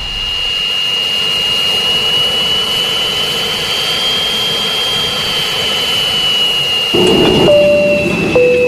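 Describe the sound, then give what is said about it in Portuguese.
A Boeing jet airliner taking off roars steadily, with a high, constant engine whine over a broad rumble that swells a little louder near the end. “060 e mantendo a presente proa, são as coordenadas de hoje do voo do Boeing do Coração Sertanejo. Aperta aí os cintos e vamos decolar sem demora.”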